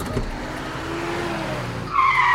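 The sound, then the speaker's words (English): A forklift driving in a warehouse in a cartoon: a steady engine rumble, then a sharp, high tire squeal in the final half second. No impact is evident. “I drove into a giant pile of boxes.”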